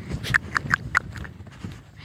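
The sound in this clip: Pony's hooves as it jumps over a pheasant feeder in the woods: a few quick, crisp hoof clicks in a short run, then softer thuds fading out.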